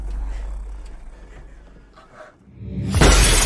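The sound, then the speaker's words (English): Glass shatters as a body is thrown in through a car's rear window: a quiet, low rumbling stretch dips away, then a sudden loud, bright crash bursts in and rings on to the end. “A bloody Paul is thrown in through the rear window.”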